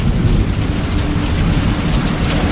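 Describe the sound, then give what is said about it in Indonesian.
Steady drizzle falls, a constant, even hiss of rain with a low, rumbling undertone and no pauses or voices. “Aku lagi dan lagi harus menerobos hujan gerimis untuk sampai di sana. Sambil sedikit berlari. Hujan terus nih.”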